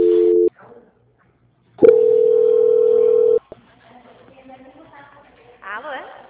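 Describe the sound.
Telephone tones play while a call is put on hold and transferred: a short steady tone, a silent gap, then a longer, louder held tone of about a second and a half, followed by faint line noise and voices.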